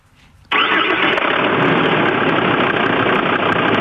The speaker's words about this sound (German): Es wird gleich das Geräusch des anspringenden Motors geben.